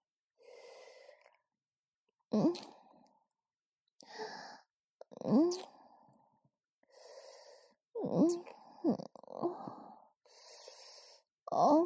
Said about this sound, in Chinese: 舒服吗？对着你的耳朵出气。